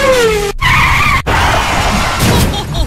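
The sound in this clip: Loud tyre squeal from a Porsche 996 Carrera 4 skidding: a sustained, whining screech that wavers in pitch, broken by two very brief gaps, with no voices.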